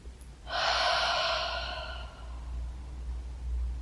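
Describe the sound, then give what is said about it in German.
A single deep breath taken during a guided relaxation exercise, a soft airy rush of breath that swells and fades over about a second and a half, heard alone above a low steady hum. “dann atme noch einmal tief ein und aus”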